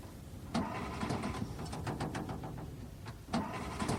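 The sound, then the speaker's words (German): A stalled car's engine is cranked but fails to start after the car stopped moving when a gear was shifted; a rapid train of starter whirring and clicks fills the middle, framed by two louder knocks near the start and end. “Wollen Sie mal die Haube aufmachen? Versuchen Sie mal anzulassen.”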